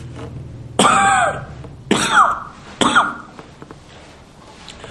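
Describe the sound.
Three harsh, throaty coughs from a man with a viral illness, each a short explosive burst about a second apart, with faint breathing afterward.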